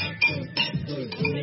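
Glasses clink in a toast, a few light, bright clinks in quick succession, fairly faint against a soft background.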